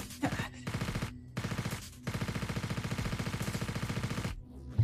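Rapid automatic gunfire in a video game, a few short bursts of fast, evenly spaced shots followed by one long sustained burst, loud and alone.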